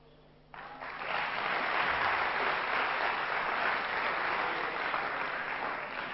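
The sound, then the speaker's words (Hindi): Loud, sustained applause from an audience bursts in abruptly after a brief quieter moment and holds dense and steady to the end. “जोर से ताली बजाइए, सब जोर से ताली बजाइए, very good, very good.”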